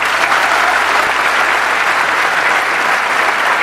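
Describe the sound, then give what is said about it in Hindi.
An audience gives steady, dense applause that holds at an even level throughout, with no voices over it. “अरे वाह, let's give a big hand for her.”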